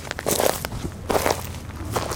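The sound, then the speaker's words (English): Footsteps crunch acorns on an autumn woodland floor, with a few sharp, crackling steps in uneven rhythm and short quiet gaps between them. “Hundreds of acorns cracking and crunching under every step.”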